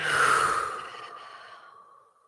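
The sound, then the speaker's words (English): A long exhale from a group of people taking a deep breath together: one breathy, airy sigh that starts loud and fades steadily to quiet over about two seconds, with no talk. “Take a deep breath in.”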